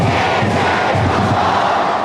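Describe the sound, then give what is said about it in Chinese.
A large crowd chants the name Dehong in unison, a loud, dense roar of many voices that carries on without a break. “你们喊气势如虹，准备好全场朋友的声音，来，德宏德宏，德宏德宏，”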